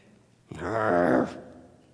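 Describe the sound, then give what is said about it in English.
A person lets out a single low, sustained vocal growl lasting under a second, a rough voiced rumble with no words. “sorry, I'm growling at the clock. I'm sorry. Sometimes you have to growl at the clock.”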